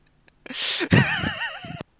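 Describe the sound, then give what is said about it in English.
A big nasal snort to clear a blocked nose: one loud, breathy rush of air through the nostrils, followed by a short, wavering vocal sound. “I couldn't actually breathe because there was still drunk up my nose. I need to have a big snort to get it back.”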